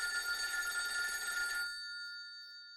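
A colonel's telephone rings at half past midnight, a bright metallic bell trill that cuts off abruptly and leaves a short fading ring, heard alone.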